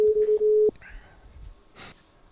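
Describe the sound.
Telephone line tones sound as a number is dialed to reach a radio contest winner. A steady mid-pitched tone with a few brief breaks cuts off after under a second, followed by faint line noise and a short crackly burst.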